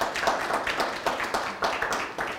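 An audience at New Hope claps to welcome two new guests, many sharp claps in an even, rhythmic beat, moderately loud and short.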